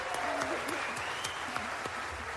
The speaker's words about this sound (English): An emotional moment as U.S. lawmakers applauded the leader of Ukraine.